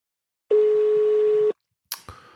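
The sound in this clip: A telephone ringback tone sounds while a caller waits for an answer: one steady mid-pitched tone lasting about a second, then silence, then a short clattering click.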